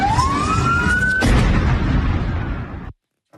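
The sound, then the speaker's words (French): Explosion near a hotel in central Damascus, a single sharp blast that cracks out over a rising siren-like whine, followed by a rumbling roar that decays over about two seconds before cutting to silence. “Voilà, donc c'était un son effectivement très court. Je ne savais pas que c'était aussi court que ça. C'était le son de l'explosion.”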